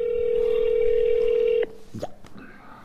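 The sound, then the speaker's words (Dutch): Telephone dial tone for an outgoing call: a steady, single-pitched tone holds for about a second and a half, then cuts off abruptly, leaving faint, irregular noises. “Ik ga nu bellen, let op, komt ie.”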